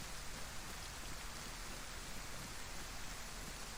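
Pouring rain in a video game, heard as a steady, soft hiss of dense rainfall with no distinct drops and no talk.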